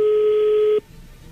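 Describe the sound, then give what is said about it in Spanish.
A telephone ringing tone sounds as a call is dialed: one steady mid-pitched tone holds for most of a second, then cuts off abruptly into quiet line hiss. “Bueno, pues ahí se está marcando”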